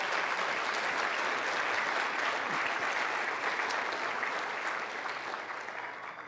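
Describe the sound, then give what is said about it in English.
An audience of parents gives steady, dense applause for volunteers who serve kids. The clapping holds at an even level before slowly fading toward the end. “Could you give them a hand, all our volunteers?”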